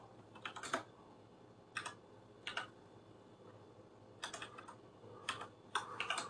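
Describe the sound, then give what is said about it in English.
Someone types one-handed on a computer keyboard: quiet, irregular clusters of key clicks separated by short pauses, with no talking. “typing with one hand here, I've got too much stuff on my desk”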